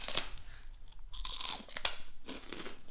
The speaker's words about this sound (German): Okay, dann beiß mal rein. Ich probiere mal das Reisschnittchen.